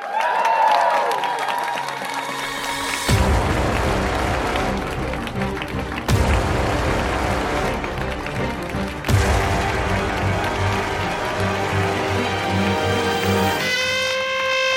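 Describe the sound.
A live audience applauds and cheers as performers are welcomed to the stage, a dense, sustained wash of clapping that starts after a short opening and carries on for roughly ten seconds before a tonal sound takes over at the end.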